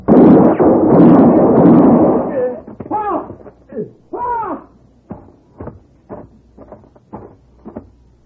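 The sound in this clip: A gunshot bursts out loud and broad, and its roar rings on for about two seconds. A series of shorter, fainter hooting tones follows and fades.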